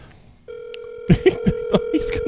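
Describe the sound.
Ringback tone of an outgoing telephone call: a steady, mid-pitched electronic tone starts abruptly and holds without a break, while short bursts of talking come in over it.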